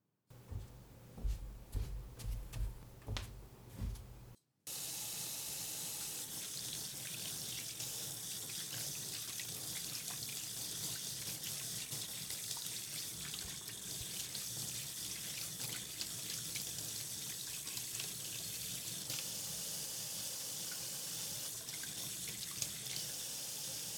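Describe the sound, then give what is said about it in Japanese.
Water from a running tap splashes into a kitchen sink as hands are washed, a loud, steady rushing that lasts about twenty seconds after a short, uneven opening of other sounds. “よし、手洗った。”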